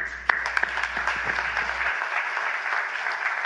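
An audience applauds to welcome a pastor to the platform, with steady, full clapping throughout and a few sharper individual claps early on.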